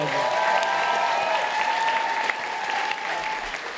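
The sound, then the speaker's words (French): Studio audience applause follows an a cappella song on a French television show: thick, continuous clapping at an even level throughout, dipping a little toward the close. “Il y a eu des applaudissements. Oui, on peut l'applaudir.”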